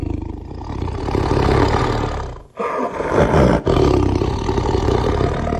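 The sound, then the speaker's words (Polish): A Sumatran tiger roars loudly, with deep, rumbling, throaty bursts broken by a brief pause and a sharp catch before the roaring resumes. “To jest podgatunek tygrysa, tygrys sumatrzański.”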